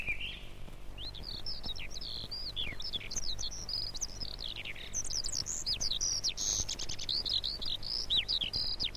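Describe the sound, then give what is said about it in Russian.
A thrush sings its first timid song of spring, just back from the south. High, bright chirping phrases repeat steadily and fairly softly, with short pauses between them. “Свою первую песню поет дрозд. Слышите? Пока еще очень робко.”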